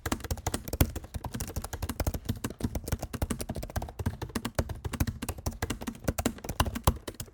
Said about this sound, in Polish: A gdybyśmy korzystali z wbudowanego mikrofonu, bo tak, cały podcast nagrywam na wbudowanym mikrofonie, to klawiatura brzmi tak.